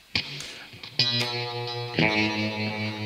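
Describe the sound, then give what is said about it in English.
An electric guitar played through delay and reverb effects. Three chords or notes are struck at roughly one-second intervals, and each rings on with a sustained, echoing tail. “Turn my delay down a little on the reverb.”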